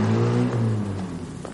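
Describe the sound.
A car engine drives off with a low, steady droning hum whose rumbling tone eases slightly as the vehicle moves away.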